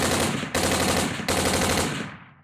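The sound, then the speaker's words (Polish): Rapid automatic gunfire rattles in a loud, dense, sustained burst with two brief breaks before trailing off, fired by German troops at the opening of the 1941 invasion of the Soviet Union. “Zamiast niej otrzymali serię z automatu.”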